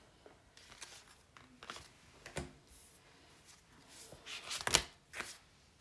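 Tarot cards are shuffled in quiet bursts of soft riffling and light slapping, irregular and faint, with one sharper snap near the end.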